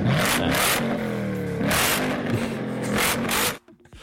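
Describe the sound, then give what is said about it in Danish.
A Corvette sports car engine revs hard in several quick throttle bursts, loud and rough with a raspy, growling tone, then cuts off abruptly just before the end. “Det er en Corvette.”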